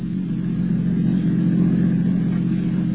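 A car is driving, giving a steady, loud, low engine rumble with road noise. The sound stays even throughout and there is no talking.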